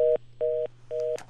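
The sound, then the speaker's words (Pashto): Telephone tone after a dropped call connection: three evenly spaced beeps at a steady mid pitch, separated by short gaps, over a low constant hum. “تلیفوني ارتباط قطع شوی دی”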